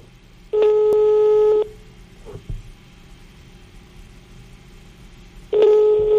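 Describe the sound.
Telephone line tone on a call that goes unanswered: two steady, bright electronic beeps about a second long each, separated by a long quiet gap of low hiss, with the second beep cut off at the end.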